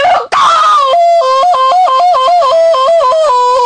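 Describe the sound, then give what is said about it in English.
A woman screams on a phone call: a loud, high-pitched, sustained cry whose pitch wavers rapidly up and down for several seconds, with no other voices. “Okay, I don't understand what you're screaming.”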